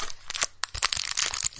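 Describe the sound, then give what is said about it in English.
Crinkling and tearing of a pack of hockey cards being opened, with a quick run of sharp, papery rips and crackles of varying loudness, heard alone. “Of course, you know what that sound is. Hockey cards.”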